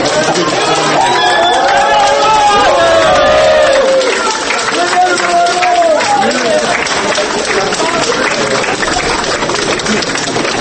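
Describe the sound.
Supporters outside a courtroom applaud a woman released from custody. Steady clapping runs for the whole stretch, mixed with crowd chatter and people talking over it.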